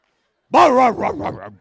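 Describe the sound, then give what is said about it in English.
A person imitates a dog's bark, producing a single drawn-out, wavering yelp of about a second that sounds more like a small chihuahua than a big dog. “Now that sounded a little more like a chihuahua, but anyway, I'm working on my bark”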